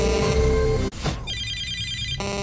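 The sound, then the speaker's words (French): An answering machine beeps before a caller leaves a message. Bright tonal chimes are cut off by a brief gap, then a sustained electronic tone holds for about a second before stopping abruptly. “Après le bip, c'est à vous.”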